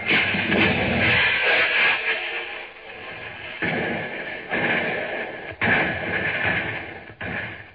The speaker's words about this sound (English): Ready on the firing line. The flag is waving. The flag is down. Fire!